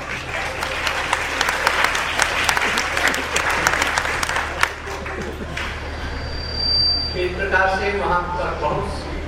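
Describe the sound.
Applause from a crowd: dense, crackling clapping fills the first half, then thins as voices and other sounds rise in the later part.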